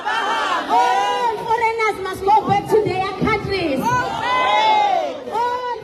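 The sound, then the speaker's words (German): A crowd of demonstrators chants while marching through the streets of Durban, South Africa, at an anti-foreigner protest. Many voices shout loud, rhythmic calls with rising and falling tones, continuing throughout in repeated bursts. “Hunderte Demonstranten ziehen durch die Straßen von Durban, halten Schilder hoch, auf denen steht: Kommt und holt eure Leute ab. Immer wieder wird der Ruf laut”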